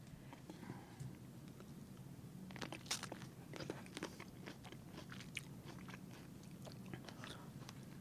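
Someone bites into and chews an expensive food: faint crisp crunches and wet chewing clicks that come in an irregular series, many small bites, each quiet and close.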